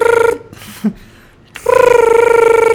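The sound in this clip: Telephone ringing after a citizen service complaints number is dialed: a buzzing, warbling ring tone sounds, breaks off into a short near-silent pause, then rings again loudly and steadily.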